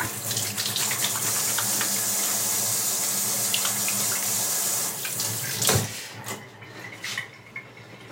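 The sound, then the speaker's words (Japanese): Running tap water pours steadily into a sink while hands are washed with hand soap, a bright continuous splashing broken near the end by brief shifts and splashes as the hands move under the stream. “ハンドソープで、でもちゃんと洗って、”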